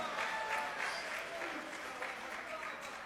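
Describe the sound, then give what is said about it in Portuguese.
An audience claps during a church service, a dense, steady patter of applause that holds at an even level throughout, with voices mixed in. “Palmas que glorifica.”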